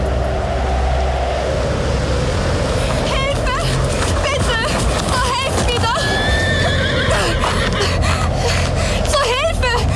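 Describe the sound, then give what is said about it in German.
A horse whinnies as a rider arrives on a stormy night. The loud, wavering whinny rises above steady, dense storm noise that continues throughout. “In einer stürmischen Nacht, nur wenige Tage später, kam Elizabeth Blessenville dann nämlich höchstpersönlich in die Stadt geritten.”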